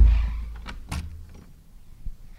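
A door opening into the old Booth room at the front of the Players Club building gives a few muffled knocks and a short mechanical creak, over a low rumble.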